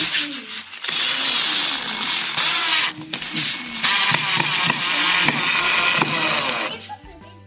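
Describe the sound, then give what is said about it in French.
A power screwdriver or drill drives screws into the shoulders of a nearly three-metre carnival king figure. The motor whirs loudly and steadily with wavering pitch, stops briefly midway, resumes, then winds down at the end. “Je vais visser les épaules du roi carnaval.”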